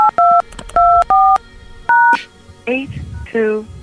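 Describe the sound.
Telephone keypad tones entering a voicemail passcode: a few short, steady dual-tone beeps with gaps between them, then a voice speaks.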